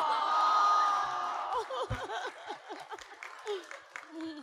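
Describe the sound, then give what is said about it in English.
Cheering, whooping and applause from a large audience at a live show, a dense roar that is loudest at the start and then thins, with voices talking over the crowd noise. “So lights are up, people are lining up. It's a big crowd.”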